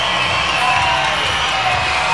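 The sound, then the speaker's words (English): A baseball crowd cheers in the eighth inning with the tying run in scoring position, a steady, dense roar of many voices lasting about two seconds. “And now the crowd getting into it.”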